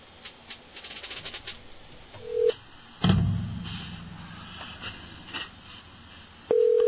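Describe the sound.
Telephone line tones while a call to a guest is being placed: a short, steady electronic tone, then a louder burst of line noise, and the tone returning at the end. Faint clicks and hiss run between them.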